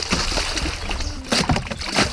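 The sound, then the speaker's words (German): Splashing and sloshing water as a homemade raft, built over two hours, is launched into the water, with irregular bursts of splashes of varying loudness. “Wir haben jetzt schon 2 Stunden dran gearbeitet und jetzt sind wir fertig und bringen es ins Wasser.”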